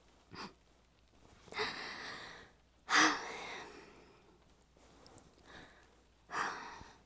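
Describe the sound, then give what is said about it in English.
Heavy breathing from someone catching their breath, a few faint gasping inhales and exhales spaced by pauses. “Hold on, I need to catch my breath.”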